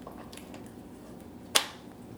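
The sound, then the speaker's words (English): A ball lock gas connector snaps onto a beer keg on a CO2 line, giving one sharp click with a brief burst of hiss that fades within a fraction of a second, alone against a quiet, steady background. “I'm putting on the gas end of the ball lock and tightening it. I'm going to put it right on the keg and get this started right now.”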